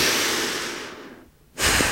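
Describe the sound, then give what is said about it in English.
A person breathes during a guided breathing exercise: a long, airy cleansing exhale fades to a short silence, then a sharp, loud inhale starts. “And exhale, inhale, exhale, cleansing breath,”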